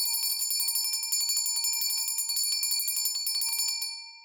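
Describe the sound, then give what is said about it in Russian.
A small bell rings at a church liturgy in a rapid, continuous high-pitched trill of many quick strikes, then fades away at the end. “Среди мертвой тишины зазвенел колокольчик.”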